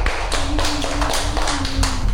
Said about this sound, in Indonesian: Tepuk tangan untuk Akhtar.